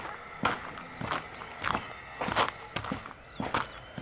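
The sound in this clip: Footsteps of people walking over to someone: a faint, steady series of soft thuds at an even walking pace.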